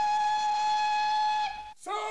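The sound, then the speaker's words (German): A steam train whistle at a railway station in Panama, one steady tone held for about a second and a half before it cuts off, followed by a brief, breathy burst of sound. “Auf einer Eisenbahnstation in Panama.”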